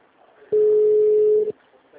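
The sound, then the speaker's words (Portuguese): A telephone line tone sounds as a call is placed: one loud, steady, mid-pitched beep lasting about a second over faint background hiss. “Agora que a gente já está ligando em Ferraz. Desliguei a liga de novo.”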